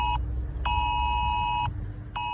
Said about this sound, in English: almost every single smartphone and tablet in this country, even if it's on silent, will issue a siren-like sound, which will sound something like this.